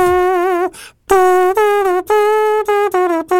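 Open trumpet, played without a mute, sounds a bright, brassy run of about six sustained notes that step slightly in pitch, with a brief breathy pause after the first note and no talk.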